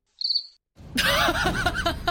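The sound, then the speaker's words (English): A single short, high cricket chirp sounds alone, then after a brief pause people break into loud laughter that lasts to the end. “Little cricket on his belt starts chirping loudly as he says, I want to get hit.”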